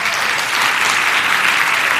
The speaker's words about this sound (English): The rest of you, we want to give you a big round of applause.